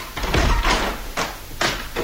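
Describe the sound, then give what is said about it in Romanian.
Knocks on an office door, a few dull, moderately loud thuds spaced in an uneven rhythm against a quiet background. “Cineva bate în ușă. Intră.”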